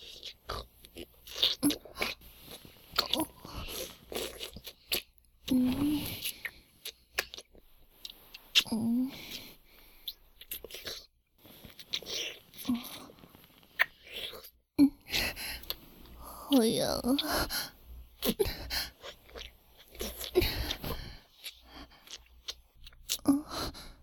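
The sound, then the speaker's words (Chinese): Licking: wet, smacking mouth sounds repeat at irregular intervals, soft to moderate in loudness, with quiet breathy noises between them. “好了，别舔了。”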